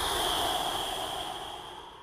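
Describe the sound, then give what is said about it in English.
A long, steady breath blown out through the mouth during a calming breathing exercise. It is a soft, airy hiss that fades slightly toward the end, with no talk. “Let all the air out through your mouth.”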